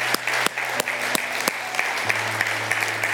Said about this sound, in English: Church, can we put our hands together and welcome those born into God's family today?